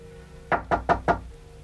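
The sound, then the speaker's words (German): Knocking on a door, four quick, crisp raps in an even rhythm, fairly loud over a faint steady background hum, with no voices. “Es hat geklopft.”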